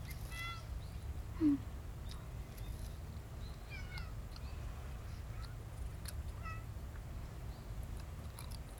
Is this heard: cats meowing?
yes